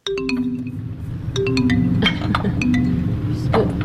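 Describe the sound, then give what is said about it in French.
Glass jars holding spider specimens clink and knock together as they are handled in a museum collection, with many sharp, bright taps and short ringing tones scattered irregularly throughout. “Il faut pas casser les bocaux”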